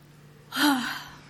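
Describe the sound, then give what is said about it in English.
A deep breath drawn in by a group together, one loud airy rush of air about half a second long that swells quickly and then fades, with no talk over it. “I just want all of you to take a really deep breath with me.”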